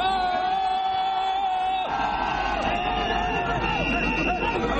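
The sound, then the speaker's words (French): Thousands of jubilant party supporters welcome Abdoulaye Wade in Dakar. A dense, loud crowd roar runs without pause, with sustained tonal voices or calls rising above the steady noise. “Maître Abdoulaye Wade n'a rien perdu de sa popularité. Il a été accueilli par des milliers de militants en liesse”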